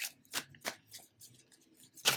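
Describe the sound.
A tarot card deck is shuffled in a series of short, quiet riffling bursts, with the last burst the sharpest.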